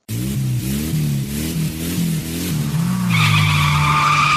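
A race car's engine revs with a wavering, rising and falling pitch, then a loud, sustained high-pitched tire squeal rises over the engine drone as the car skids through the final part.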